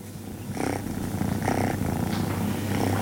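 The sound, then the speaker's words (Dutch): Kittens about five to eight weeks old purring at a kitten foster home: a soft, steady, low rumbling purr that swells in slow repeating cycles, quiet and continuous with no voices. “Zo wemelt het van de kittens op het moment. Juist die kleine poesjes hebben heel veel zorg nodig.”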